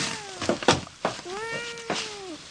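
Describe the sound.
A cat meows in drawn-out, tonal cries, with a couple of clear meows and a few soft knocks and thumps between them, with no talk over the calls.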